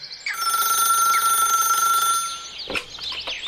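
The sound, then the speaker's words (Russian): Telephone ringing in a general's office in early June, an incoming call. A bright, electric ring sounds continuously for about two seconds, then stops, followed by a few fainter, softer sounds. “В начале июня, когда солнце светит так же жарко, раздается очередной звонок.”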